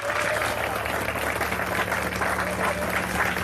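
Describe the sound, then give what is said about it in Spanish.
A church audience applauds during a service with dense, continuous clapping that stays loud and even from start to finish. “Al Señor ese aplauso, déselo, hermano.”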